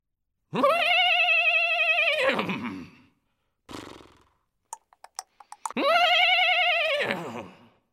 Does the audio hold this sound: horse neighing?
yes